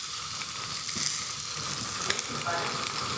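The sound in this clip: Steady, hissing sizzle of a steak seasoned with black pepper frying on stove burners, with faint crackles scattered through a constant, even level.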